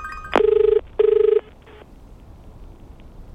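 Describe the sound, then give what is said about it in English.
A telephone rings while a call is placed: two steady electronic ring bursts of even pitch, each under half a second, separated by a short gap. A faint low hum of line noise follows. “All right, let's press dial.”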